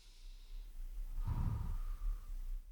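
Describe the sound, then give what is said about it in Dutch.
A slow, deep breath in and out, soft and airy, with a single gentle swell of air noise in the middle of a faint, quiet background. “daad bij het woord voegen en al een keer goed diep in- en uitademen”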